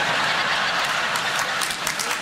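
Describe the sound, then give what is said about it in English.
Steady audience applause, a dense wash of many hands clapping at an even, loud level throughout. “I haven't got time for your applause.”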